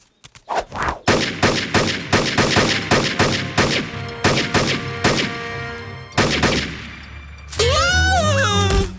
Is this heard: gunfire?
yes